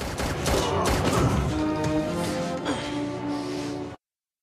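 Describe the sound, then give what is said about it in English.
Loud, dense gunfire fills the first second and a half as a rapid burst of shots in a dramatic shootout, then gives way to sustained musical tones that ring out until the sound cuts off. “Hurling himself through the air, Bob shoots Ethan, who's thrown backwards by the force of the bullets.”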